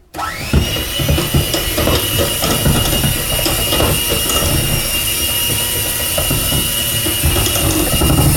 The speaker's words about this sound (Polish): Widać, że się mikser męczy, więc im ciasto gęstsze, tym kolejne miksowania możemy zaczynać od wyższych obrotów